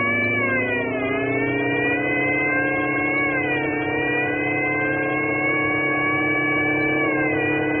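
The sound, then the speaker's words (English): A car's supercharger and emergency speed gear kick in during a pursuit, giving a loud, steady, high mechanical whine that holds its pitch throughout, with a few slight dips and wavers. “I'm going to kick in the supercharger and the emergency speed gear.”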